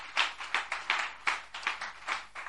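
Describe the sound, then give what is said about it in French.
A church audience claps along in a steady, even beat, with bright palm strikes repeating about every third of a second at moderate loudness throughout. “Est-ce qu'on peut acclamer?”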